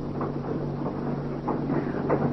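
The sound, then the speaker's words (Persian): A train starting to move, heard as a steady low rumble and hum with faint, uneven clunks rising through it. “قطار به راه میافتد.”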